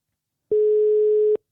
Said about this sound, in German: Dann drück doch nochmal drauf, dann rufst du ihn wieder an.